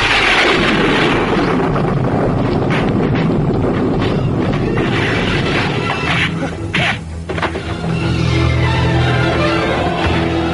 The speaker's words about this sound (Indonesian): Pijar kilat disusul dengan ledakan petir yang menggelegar